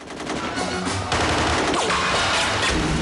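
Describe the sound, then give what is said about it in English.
Rapid gunfire is exchanged with a hitman during a street shootout at a funeral procession, a dense, loud burst of overlapping cracks and bangs that continues throughout. “grabs a gun from the funeral coach and exchanges fire with a hitman”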